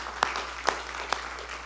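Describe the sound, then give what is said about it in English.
Applause from a church audience during a Sunday service: faint, with three sharper claps standing out over a soft, steady patter. “Can we just give a round of applause and a thanks to God?”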